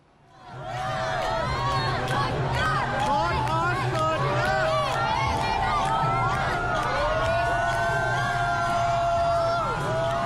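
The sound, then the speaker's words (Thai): Hundreds of volleyball fans at Suvarnabhumi Airport greet the Thai women's volleyball team after its Asian championship win, with loud, continuous crowd chatter, raised voices and cheering that swells in within the first second and stays dense. “นี่คือสนามบินสุวรรณภูมิเมื่อคืนค่ะแฟนวอลเลย์บอลนับร้อยเลยนะคะมาต้อนรับทัพนักตบลูกยาง”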